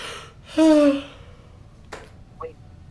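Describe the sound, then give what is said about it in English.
A voice imitates a huge intake of breath by a Scottish man stretching out his arms during a tabletop role-playing game. It is a loud, short gasping inhale with a falling pitch. “Stretches out his arms, take a huge breath.”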